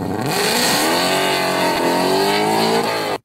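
Engine revving of a Ferrari 296 GTB: a loud, sustained, high-pitched roar with dense harmonics, held steady for about three seconds before cutting off abruptly.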